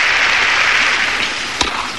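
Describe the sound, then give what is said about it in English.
Crowd applause at a women's tennis match, a steady wash of clapping that holds for the full two seconds, with one sharper bang near the end. “The crowd applauded her pluck.”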